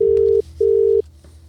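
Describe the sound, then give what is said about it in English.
Ringback tone of an outgoing phone call ringing out: two steady, mid-pitched tone bursts of equal length separated by a short gap, followed by quiet line hiss. “What am I ringing him on? You ring him on your phone. Here we go. Come on. Tell me if he answers.”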